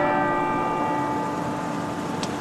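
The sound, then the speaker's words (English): Cathedral church bells in Cove, East Cork, ring the quarter hours: a sustained, resonant hum with layered overtones that holds steady and fairly loud throughout, with no voices. “Ringing out the passage of time in quarter hours, the bells of St. Colman's Cathedral in Cove are a constant”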